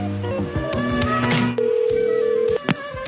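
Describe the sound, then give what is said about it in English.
Telephone tones as a motel room extension is dialed: a few short beeps, then one long steady tone lasting about a second, followed by a brief click. “hold while I try that extension. Here's 111.”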